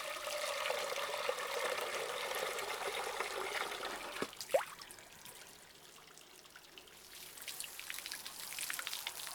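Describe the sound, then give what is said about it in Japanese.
Water pours and splashes as someone's neck and back are washed, a steady rushing stream for about four seconds, then a brief sharp splash, a quieter trickling stretch, and the flow building again near the end. “では続いて首から背中を洗っていきますね。”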